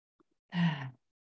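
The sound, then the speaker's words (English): A single deep inhaled breath, a short gasp-like draw of air lasting about half a second, heard alone against silence with two faint soft clicks just before it. “we're going to take three deep cleansing breaths. So we're inviting presence, we're inviting awareness now with this first inhalation. Inhalation.”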